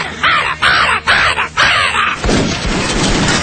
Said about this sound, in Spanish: Sí, es un pájaro pequeño. Es un pájaro pequeño que dice, que tiene tero, tero. Y dice ¡tero, tero, tero!